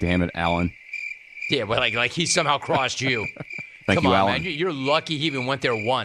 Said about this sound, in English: On the board. You know what that is? That's the sound of crickets